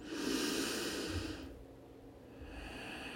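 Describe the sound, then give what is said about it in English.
A deep breath is drawn in during a guided meditation: a long, airy inhale, then a short pause before another softer breath begins. “Breathe that in.”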